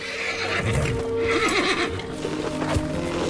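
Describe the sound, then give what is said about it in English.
A rearing horse, with a blanket just put on its back, lets out a loud, shaky neigh partway through, set among hoof clip-clops and restless movement. “Whoa, son. Easy now. Jordan captures the rearing horse on film.”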